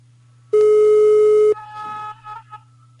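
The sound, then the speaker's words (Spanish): A telephone ringback tone plays on an outgoing call: one steady, buzzing tone lasting about a second, followed by fainter, broken sounds. “Esto lo estamos haciendo en directo, lógicamente notarás pues que la señal de llamada”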